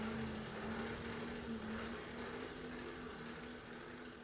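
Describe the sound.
An antique hand-cranked forge blower, patented in the 1840s, runs in a blacksmith shop. It gives a faint, steady whirring hum with one constant tone and slight wavering, and there is no talk.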